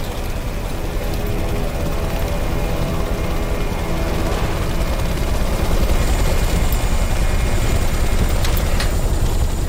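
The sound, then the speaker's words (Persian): Helicopter hovering over a military rescue where it cannot land and must winch people up, a dense, loud, unbroken roar of rotor wash and engine noise that holds steady throughout. “هلیکوپتر فرود نمیاد؟ نمیتونید. پایداریشو از دست میده. شما رو میکشیم بالا.”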